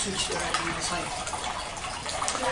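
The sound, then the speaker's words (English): An indoor waterfall fountain runs with a steady, dense rush of splashing water that stays even in loudness throughout. “During the class, shall we turn this off, this waterfall?”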